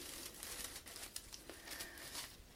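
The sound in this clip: Tissue paper pom-poms crinkling: quiet, dense, papery crackles and rustles continue steadily throughout, with no talking.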